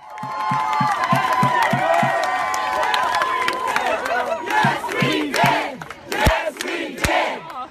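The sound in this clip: A crowd outside the US Capitol at night cheers and chants in rhythmic pulses of many voices. Loud shouts and whoops rise over the chant, with a few sharp claps near the end.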